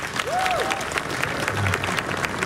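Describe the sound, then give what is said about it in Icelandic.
Audience applause at a summer jazz concert: steady, dense clapping runs through the whole short stretch at an even loudness. “Já, já, klöppum fyrir því.”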